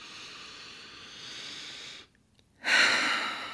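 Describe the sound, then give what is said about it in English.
A deep breath: a long, soft, airy hiss, a brief silent pause, then a louder rushing burst of breath. No voices. “let's all take a huge deep breath in.”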